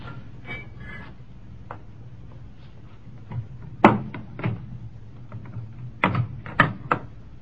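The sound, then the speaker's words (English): A small crowbar prying at a door, a series of sharp metallic knocks and clicks over a quiet background, with a few louder cracks clustered near the middle and again toward the end. “No, but it's going to be tough to open. Give me that small crowbar.”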